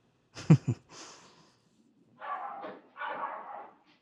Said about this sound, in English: We each have some dog issues, and they're just happening on the air a little bit.